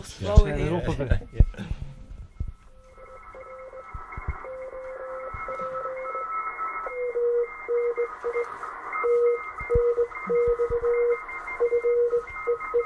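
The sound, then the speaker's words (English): Morse code keyed as a steady mid-pitched tone in short dots and longer dashes, with a fainter higher tone alongside, following a brief stretch of talk at the start. “Let's have one more listen to Morse,”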